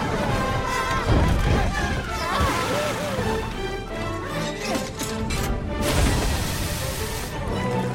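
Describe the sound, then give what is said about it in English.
Water rushes down a drain with a loud, churning, sloshing roar that swells and crashes in waves, while frightened voices shout over the torrent. “What was that? The drain! We're getting out of here!”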